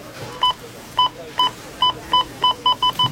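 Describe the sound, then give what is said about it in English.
A store checkout scanner gives nine short, identical electronic beeps that come faster toward the end, over faint background noise. “You know it's Rona week when the checkout sounds like this.”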